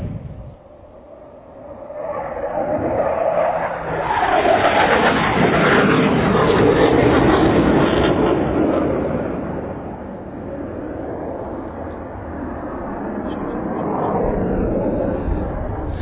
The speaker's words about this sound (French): Ok, les afterburners viennent de s'ouvrir avec la boucane noire en arrière. Et il s'en vient. 1000 km/h.